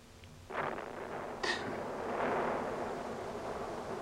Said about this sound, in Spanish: ¿Eso fue un cañón? ¿O es el latir de mi corazón? Es una nueva arma alemana. Se escucha el sonido como a 70 kilómetros.